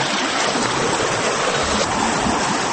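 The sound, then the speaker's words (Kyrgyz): Rushing, churning water from a paddled water wheel turning in a flowing canal: a steady, dense roar with no distinct beats, loud and even from start to finish. “Мирламбек акенин чарктык балеги тынбай дөңгөлөнө айланып жатты”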